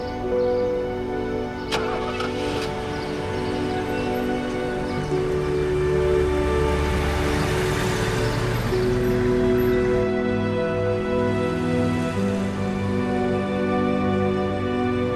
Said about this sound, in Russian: Едут через город на кладбище.